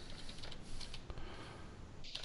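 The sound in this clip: Keys clatter as someone types a message on a computer keyboard, a dense, steady run of quick clicks lasting the whole clip with brief sharper taps near the end.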